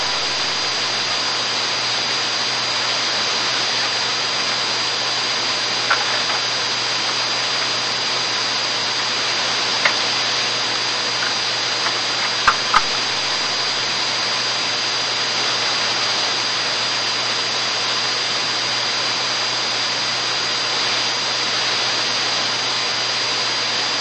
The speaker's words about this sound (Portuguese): TAM 3305, está autorizada a decolagem da 10, o vento é de 160 graus com 5 nós.